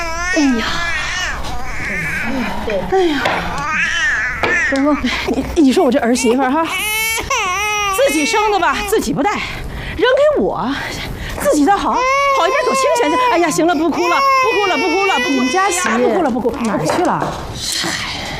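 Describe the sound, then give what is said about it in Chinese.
An infant cries loudly and continuously, with wavering, strained wails while a grandmother tries to soothe it. The cries rise and break in repeated bursts throughout. “哎呀，行了，不哭了，不哭了，不哭了，不哭了”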